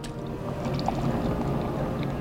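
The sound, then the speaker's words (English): Beer splashes into a frosty mug at a saloon on a hot afternoon, making a steady, continuous rushing pour that holds at an even loudness throughout. “beer splashes into a frosty mug at Buster's in Sun City, a Barber County saloon”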